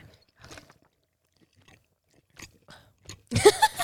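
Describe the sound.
Close ASMR-style chewing of a Travis Scott McDonald's meal dipped in sauce: a few soft, wet bites and munches, quiet and sparse, then a louder crunchy burst of chewing near the end.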